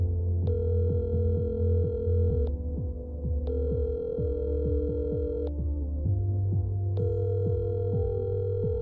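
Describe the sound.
A telephone rings unanswered on the line. Three long, steady ringback tones are spaced evenly over a loud, throbbing low-pitched bed of pulsing tones, with no talking.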